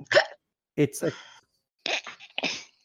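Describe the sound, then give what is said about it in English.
A brief hiccup breaks into conversation, a short sharp vocal catch heard among people talking in a tabletop game session. “Bless your hiccup.”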